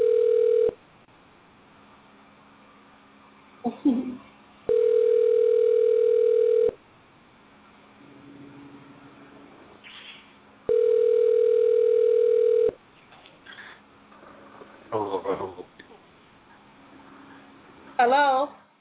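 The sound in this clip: A telephone call rings out unanswered in three long, even ringback tones spaced several seconds apart, while people talk quietly in the gaps between them.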